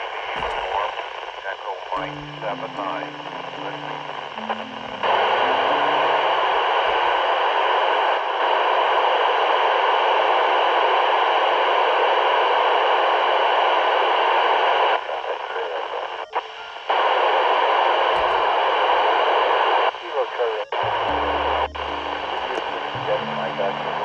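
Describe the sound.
An amateur radio satellite downlink received on 145.985 MHz comes through as a hissing band of static that fills most of the stretch. A person talks briefly at the start and end.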